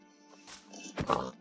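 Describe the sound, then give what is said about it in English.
A pig in a video game gives a couple of short, faint grunting oinks over a steady tonal background. “I'm killing a pig. Stay in the jungle? Wait. I'm making... I'll make a boat in a second, but I just need to kill this pig.”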